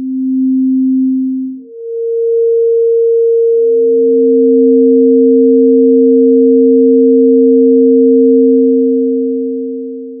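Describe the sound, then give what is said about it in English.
Two steady pure sine tones 75% apart in frequency. The lower tone sounds alone briefly, then the higher one replaces it, and the lower returns beneath it so both hold together smoothly before fading slightly at the end. “If the frequencies are much further apart, then you actually hear two separate notes rather than just one note with beating. Here, for example, are two notes 75% apart.”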